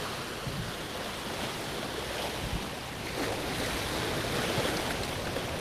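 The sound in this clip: Ocean waves washing over rocks by an aquarium make a continuous broad rushing wash that swells slightly toward the end, with no distinct breaks and no voices.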